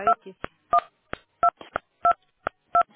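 Telephone keypad tones sound during a call: short, evenly spaced electronic dual-tone beeps follow one another in a steady rhythm, with fainter clicks between some of them.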